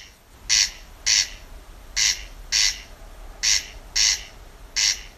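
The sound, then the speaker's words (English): A corncrake calling at Fota Wildlife Park, County Cork, gives seven harsh, rasping calls, mostly in loose pairs and spaced at a steady pace over a faint background hiss. “During our live Dawn Chorus broadcast in May last year, Blonidney Coffey brought us the distinctive sounds of the corncrake while she was at Fota Wildlife Park in County Cork”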